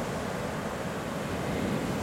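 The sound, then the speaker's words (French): Sea waves breaking forcefully on the shore make a loud, steady, unbroken roar of rushing water that holds at the same level throughout. “Oh là, regarde, là elle se donne à fond la mer là. hein. Le bruit qu'elle fait là, elle est en pleine. euh, comment dirais-je, en pleine force quoi.”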